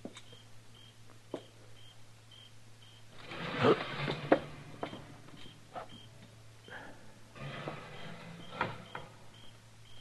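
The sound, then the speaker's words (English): A screen door is jerked open with a scraping, creaky rattle near the middle. A second rustling burst follows later, all over a low, steady hum. “Now, when I jerk the screen open, I'm going to go in fast.”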